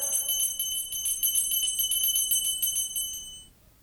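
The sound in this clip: A small hand bell is rung for a servant, producing a quick, steady run of bright, high jingling strokes for about three seconds before the sound fades out.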